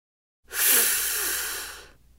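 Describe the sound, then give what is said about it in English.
One long, deep breath drawn in through the nose, a soft steady hiss of about one and a half seconds that fades at the end, heard alone. “Try to stop it. Take a deep breath.”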